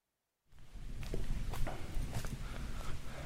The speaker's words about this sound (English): I'm walking now towards what looks like a wall of green sugarcane. We've arrived in the Dominican Republic. Expect a bit of crunching as I move through.